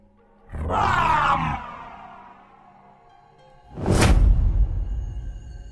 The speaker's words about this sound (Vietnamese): Dứt lời, cô đế cũng bắt quyết niệm lên một tràng chú ngữ khó hiểu, sau đó vận lực mà quát lên một tiếng long trời lở đất.